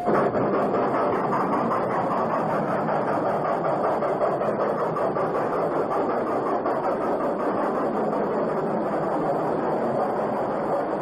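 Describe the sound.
A train pulling into a station gives a loud, continuous rumble and rattle that holds steady throughout, with no pause or clear change in pace.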